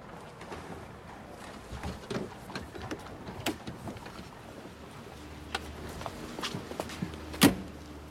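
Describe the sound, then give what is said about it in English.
A woman reluctantly opens a car door from inside to get out: faint clicks and rustles scatter through the quiet, a low steady hum joins later, and a sharp latch click stands out near the end. “reluctantly opens the car door and gets out”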